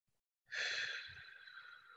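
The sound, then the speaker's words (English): A slow, deep breath during a guided breathing exercise: one long, soft, airy rush that starts abruptly and trails off steadily, heard alone. “And you can do it through your nose, through your mouth, whatever, you know, whatever works for you, but three inhales, three exhales.”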